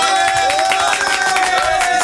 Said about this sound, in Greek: Γουστάρω τους ανθρώπους που δεν χάνουν την ενέργειά τους όσα χρόνια και αν περάσουν και θα τους χειροκροτήσω, φίλοι.